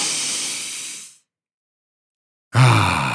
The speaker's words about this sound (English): so let's take a deep breath in right here